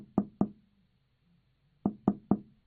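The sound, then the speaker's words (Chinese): Knuckles rap on a train toilet door, two quick knocks, a pause, then three more in an even rhythm. The knocks are fairly quiet, and nothing else is heard. “而这时一个美洲人跟到厕所门前，敲了敲门，”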